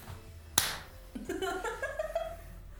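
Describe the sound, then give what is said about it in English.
High-five hand slap: one sharp, loud smack, followed by excited voices rising over the quieter background. “High fives all around!”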